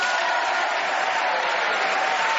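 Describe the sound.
Audience applause welcoming the four players of a panel game, a dense, even wash of clapping that holds at a steady level from start to finish without breaks.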